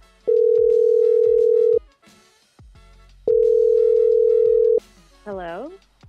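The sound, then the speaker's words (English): A telephone line tone sounds as a call is placed: two long, steady buzzing tones, each about a second and a half, separated by a pause. Each tone starts and stops abruptly, and a brief warbling sound follows at the end. “Okay. Well, let's make the call then.”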